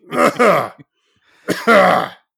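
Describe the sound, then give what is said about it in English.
A man clears his throat in two loud, rasping bursts, each made of two voiced pushes, separated by a brief silence. “sorry, I just caught a little Rod Serling in my throat.”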